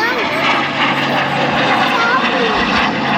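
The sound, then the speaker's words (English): An airplane flying overhead near an air force base: a loud, steady engine roar with a broad rushing drone that holds level throughout. “we're actually right by... like Randolph Air Force Base, and so we get lots of planes that come by, which is pretty cool when we look up in the sky to see what kind of plane it is.”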